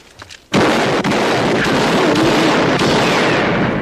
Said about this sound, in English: When Duke ultimately loses the shooting game, he whips out a real gun and shoots a bunch of holes in the projector screen he was playing on.